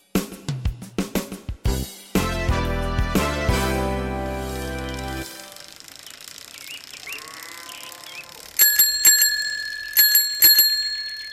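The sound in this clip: Bell ringing on a new bicycle: a few bright, high metallic rings that sound near the end, after a stretch of other mixed sounds.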